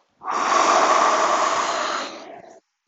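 A single deep inhale during a guided mindfulness hand-washing exercise: a steady, breathy rush of air that holds for about two seconds, then stops abruptly, with no talk over it.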